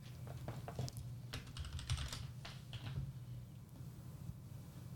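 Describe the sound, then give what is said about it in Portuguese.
Light clicking and key taps on a computer while trying to open a link: many quick, irregular, quiet clicks in small bursts, with no voices. “Eu tô clicando aqui. Vamos ver se abre.”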